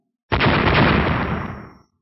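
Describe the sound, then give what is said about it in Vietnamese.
A loud explosion erupts as a single broad, roaring burst that starts abruptly and fades out over more than a second. “2 tiếng nổ mạnh vang lên.”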